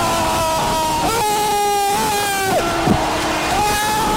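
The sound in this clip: An ice hockey arena crowd roars after a goal in a game, a dense, loud, sustained wall of cheering with drawn-out tonal shouts or horn-like notes over it, steady from start to end.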